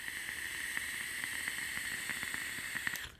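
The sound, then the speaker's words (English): A vape device, a Billet box with a Psych bridge and restricted airflow, hisses softly during an inhale, a faint steady sizzle dotted with tiny crackling pops that stops abruptly after about three seconds. “I honestly just really like vaping the psych on the inside.”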